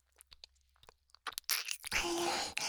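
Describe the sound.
A crunchy dessert is bitten and chewed, starting with a few faint clicks and taps, then loud, dense, continuous crunching that fills the rest of the moment.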